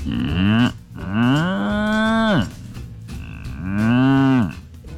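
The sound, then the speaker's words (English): A person imitates a cow's moo, giving a short call followed by two long, drawn-out moos. Each moo holds a low, buzzing tone, then drops sharply at the end, loud and alone. “Did you know I speak cow? In 1998, I went to the barn and had a conversation.”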